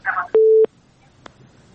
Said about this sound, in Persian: بله بله، تماس چون قطع شد، تماس بعدی را میگیریم.